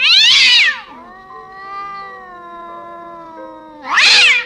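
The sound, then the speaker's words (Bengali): A black cat yowls harshly in two loud, raspy bursts, with a quieter, drawn-out tonal wail between them and no other sound. “পরের পাতায় যাওয়ার আগেই একটি কালো বিড়াল বিশ্রী সুরে ডেকে উঠল।”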